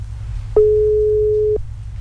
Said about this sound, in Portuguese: Tá chamando. Será que ela vai atender ou tá fazendo almoço?